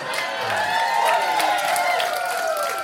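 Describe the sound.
An audience cheers and whoops as a loud, sustained mass of voices, with a wavering wail running through the crowd noise.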